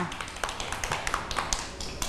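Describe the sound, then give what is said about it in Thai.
Children clapping for a classmate during a school lesson: many light, quick, uneven claps in a scattered run, with no voices. “เด็กๆปรบมือให้น้องขนุนด้วยค่ะ”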